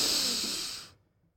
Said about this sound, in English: Breathe deeply. And exhale long. Another deep breath in.